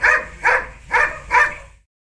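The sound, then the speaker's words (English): Four dog barks, evenly spaced and fairly loud, each a short mid-pitched burst with a brief tail, followed by silence. “2. Dog.”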